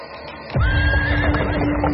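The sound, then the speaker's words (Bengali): A horse whinnies loudly from a two-horse landau carriage arriving at a house portico late at night. The single sustained neigh begins about a quarter of the way in and holds over a low, steady rumble. “দুই ঘোড়ায় টানা একখানা দামি ল্যান্ডো গাড়ি এসে মতিলাল বাবুর বাড়ির পোর্টিকোতে দাঁড়াল”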